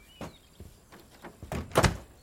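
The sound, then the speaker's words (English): A door is shut and locked, heard as a series of soft knocks and clicks that ends in a louder, heavier thunk. “locks the door behind them.”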